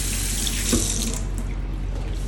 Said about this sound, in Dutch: Ik ga nu lekker mijn handen wassen.